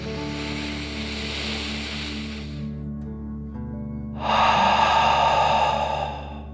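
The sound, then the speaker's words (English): Deep breathing through the mouth: a long, airy inhale of about three seconds, a short pause, then a louder, rushing exhale that fades away, all over a soft, steady background tone. “out through your mouth, imagining you are breathing fire like a dragon. Ready? Deep breath in and out.”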